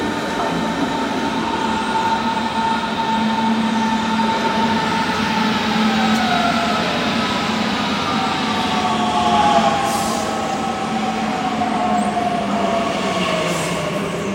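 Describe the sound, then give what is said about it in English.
Train approaching with a steady, loud rumbling roar, high metallic wheel squeals and whining tones that slide downward in pitch, continuous throughout with no talk. “there's the first train approaching.”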